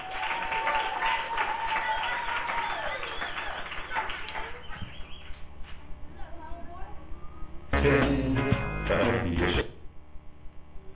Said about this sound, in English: More puppets are coming out to sing for you. They are my light puppets. Let's give them a big hand. Make them welcome.